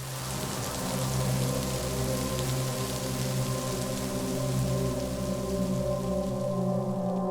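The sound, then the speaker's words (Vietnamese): Steady rain falls by a riverbank, a dense, even hiss that continues unbroken throughout, with low sustained tones running beneath it. “Chỉ có tiếng mưa trời đang âm thầm tiễn Xuyến bên bờ sông quen thuộc.”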